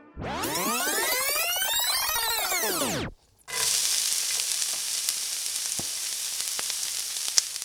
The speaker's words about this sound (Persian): پیازم که یه ذره سرخ شد توی زردچوبه میزنم و اون گوشتی که حالا یه ذره خودش با خودش سرخ شده رو بهش اضافه میکنم.